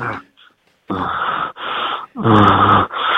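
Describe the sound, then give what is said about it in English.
A person performs a fake orgasm with several loud, drawn-out, breathy moans and groans. Short pauses separate the moans, and the last one is cut off. “give us your best fake orgasm. That was a moan. That was a groan.”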